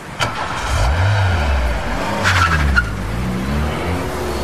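A speeding car skids, with a loud engine roar and tire noise running steadily through the whole clip as the engine pitch wavers up and down.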